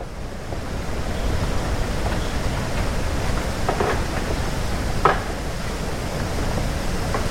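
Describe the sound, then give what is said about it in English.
Wind rushing through a deep bamboo forest on a Maui trail, where stalks stand up to 100 feet tall and 4 inches wide. A few faint hollow knocks of stalk tops striking each other sound under the steady roar. “The trail is surrounded by a deep bamboo forest. Plants are 100 feet tall, some as wide as 4 inches. And as the winds blow, the tops of the massive bamboo plants knock into each other.”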